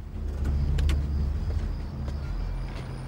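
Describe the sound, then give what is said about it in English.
A car engine rumbles low and steady as the vehicle pulls into a car park at night, with a few faint clicks over the drone. “Nighttime. Jake pulls into a car park.”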